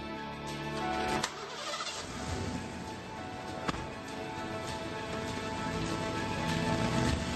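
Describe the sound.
A truck engine starts and keeps running as a steady, rumbling drone, broken by a couple of brief sharp clicks.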